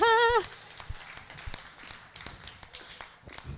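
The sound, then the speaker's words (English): Footsteps of someone walking up to the back: a run of soft, irregular taps that continues throughout, after a short voiced sound at the start. “Thought I want to walk up the back here and say hello to everybody.”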